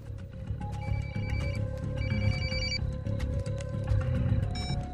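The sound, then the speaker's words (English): A telephone rings as a call is placed, with short electronic ring tones in a few separate bursts over a low, steady musical bed. “Hector immediately tries to contact Ramon.”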